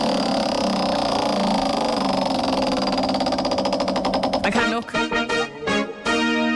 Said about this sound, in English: We're going to spin that wheel in just a mo.